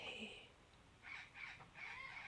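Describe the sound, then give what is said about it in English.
Faint bird calls come from outside, a few scratchy, harsh bursts in quick succession. They sit over a steady background hiss. “Oh, birds are noisy.”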